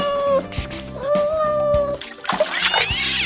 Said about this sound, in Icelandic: Næsta sem við gerum að skella í blandaran 3 mánaða persneskum kettling.